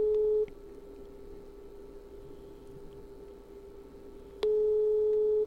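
Telephone ringback tone during a call while waiting for an answer: two steady, mid-pitched tone pulses separated by a pause of about four seconds, with a faint constant line hum and hiss between them.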